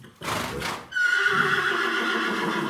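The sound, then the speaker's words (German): A horse neighs. A rough, breathy burst comes first, then a long, ringing whinny that holds loud and steady, with no talk over it. “Also damals vielleicht ein schnelles Pferd,”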